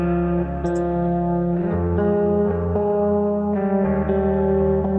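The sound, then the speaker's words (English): A recorded guitar processed through an RC-20 Retro Color plugin with reverb and light distortion, ringing as sustained, thick chords that change a few times. The sound is continuous and loud, with no talk. “So is that an RC20 reverb that I see going on? This is the retro color. All I did was have a little distortion here.”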